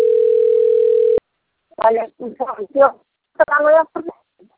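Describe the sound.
A steady telephone tone breaks into a mobile call, holding a level pitch for just over a second before cutting off abruptly. A voice then speaks in short bursts.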